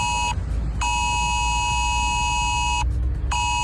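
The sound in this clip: An emergency mobile phone alert tone sounds as a loud, harsh, steady electronic tone. It comes in three bursts separated by short gaps, with the middle burst the longest, over a low background rumble.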